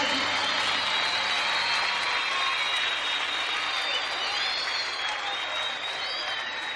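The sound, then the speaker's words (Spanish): Applause and crowd cheering at a festive night show, sending off a mariachi band: a dense, steady wash of clapping that stays loud and continuous from start to finish with no break. “Que se sienta fuerte el aplauso para despedir al mariachi.”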